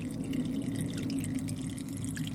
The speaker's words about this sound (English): All right, bag is draining. Let's see if we can hear this. I think we were able to last time.